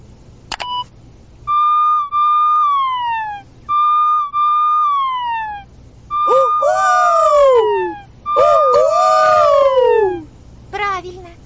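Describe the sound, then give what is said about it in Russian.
A cartoon fire truck siren. It starts with a few held electronic tones that glide downward at their ends. Then come two loud wailing sweeps that bend up and down, followed by a short final burst. “Поищите мою сирену.”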